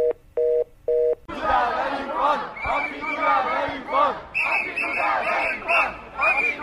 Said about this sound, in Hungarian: Úgyhogy az Üllői úton halad a tömeg, nem tudjuk, hogy merre fele.